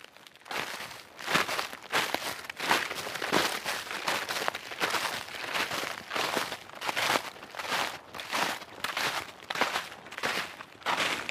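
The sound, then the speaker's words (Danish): Footsteps crunch and crackle through frozen fallen leaves on a deciduous forest floor, many loud steps in a steady walking rhythm, heard alone without voices. “går vi i noget løvskov, og så ligger det gamle løv, det ligger her på skovbunden og er frosset. Ja. Og så giver det jo nogle fantastiske lyde, når vi bevæger os.”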